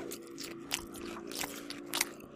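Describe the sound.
Crunchy nachos being chewed right up against a microphone: a run of faint, crisp crunches and bites over a low, steady hum.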